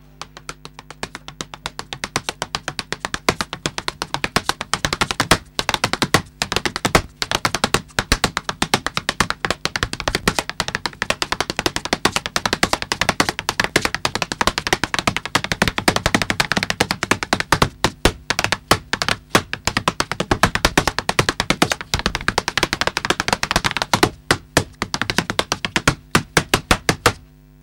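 A flamenco dancer's zapateado footwork patters in many rapid, sharp heel and toe taps, heard alone in dense driving bursts with brief pauses.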